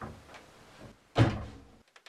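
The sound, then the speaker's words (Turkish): An old door is unlocked with a key on a string and opened, faintly: soft rustling, then a louder clunk that trails off, and a few light clicks at the end. “Kapıyı açınca odanın karanlığı vurdu yüzüne. İyice araladı eski kapıyı.”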